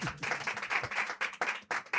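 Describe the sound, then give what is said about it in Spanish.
A few friends clapping in uneven bursts after a joke during a Spanish conversation, faint patchy applause that starts and stops repeatedly. “Eso merece un aplauso, amigas. Anda, venga, dámelo.”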